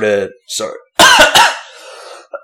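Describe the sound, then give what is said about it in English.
A few harsh, explosive coughs burst out after water went down the wrong way, tightly grouped and loud, with a voice heard just before them. “that water went down the wrong way. Don't cough on the mic.”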